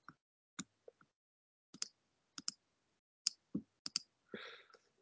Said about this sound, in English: Click Next.